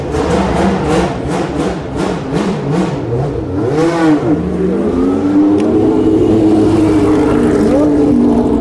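A race car engine starts and leaves the pits, opening with a string of rapid throttle blips, then swelling into a rising, sustained engine tone as it pulls away.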